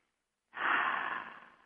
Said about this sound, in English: So let's all take a couple of deep breaths.